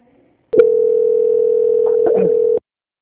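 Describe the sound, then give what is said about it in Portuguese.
A telephone line tone sounds while a bank call is transferred to quality control: one unbroken, mid-pitched steady tone lasting about two seconds, starting and stopping abruptly. “Eu vou transferir a ligação.”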